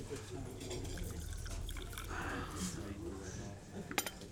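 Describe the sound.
Liquid pours from a milk jug at a breakfast table, a steady, soft splashing stream with light clinks of crockery and cutlery, ending in a brief sharper clatter.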